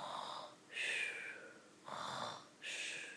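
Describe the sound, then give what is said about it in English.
A voice imitates a giant snoring, with slow, rhythmic, breathy wheezes that alternate between a lower, rougher tone and a higher, hissing one. There are about two full cycles. “When Jack heard the giant snoring,”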